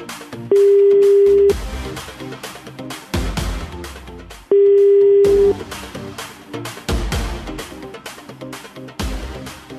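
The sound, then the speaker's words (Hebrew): Ringing line tones as a telephone call is placed for a cash-prize phone-in: two long, steady mid-pitched tones, each about a second, separated by a gap, over dense rhythmic background sound. “אנחנו מתקשרים, רגע, הנה, זה קורה.”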